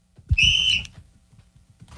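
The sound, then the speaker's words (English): A single sharp referee-style whistle blast signals the start of a 20-second play clock in a casual football game. It is a bright, steady high tone lasting about half a second, followed by faint low thumps and rustling. “But as soon as I blow this whistle, he's on the 20-second clock.”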